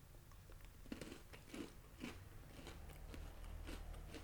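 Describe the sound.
Someone bites into food to taste it, giving a few faint, crisp crunches spaced about half a second apart, followed by softer chewing noise over a low steady background.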